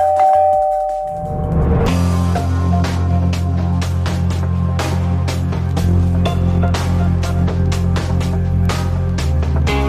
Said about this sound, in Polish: zadzwonił do drzwi